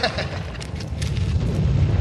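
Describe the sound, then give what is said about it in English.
A wall gives way and collapses: a low, heavy rumbling roar with crumbling bursts of debris builds and keeps rolling steadily to the end. “The wall's giving way. Get under the opening.”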